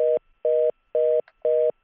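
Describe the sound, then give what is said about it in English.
Telephone dialing tones: four evenly spaced beeps of identical steady pitch, each short and clear, with brief silences between them. “Go ahead, if you're going to dial.”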